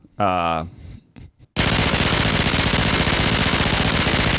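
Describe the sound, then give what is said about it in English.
A human voice imitates a minigun firing. A short vocal sound is followed by a loud, continuous, rapid buzzing burst that runs to the end. “That's a minigun sound.”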